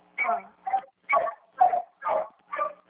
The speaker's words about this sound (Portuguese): Ai, cachorro chato, meu Deus do céu.